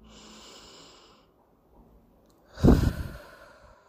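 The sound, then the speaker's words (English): A deep breath taken during a relaxation exercise: a single loud, breathy, sigh-like exhale lasting about half a second, after a faint, near-silent stretch. “Take one more deep breath.”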